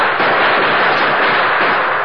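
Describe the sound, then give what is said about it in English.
Gunfire in an old radio drama, a gang pouring round after round into a darkened house, heard as a loud, dense, unbroken crackle of shots with no voices over it. “You better hug the floor, they're shooting high.”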